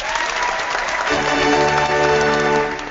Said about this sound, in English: Yeah, that's right. We have background music. Love it, love it. Studio audience.